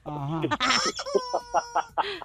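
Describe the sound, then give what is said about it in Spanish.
A chicken clucks in a few short, sharp bursts after a voice. “Hasta el pollo se asustó.”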